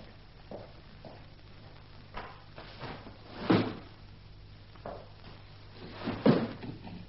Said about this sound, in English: Open some windows, please.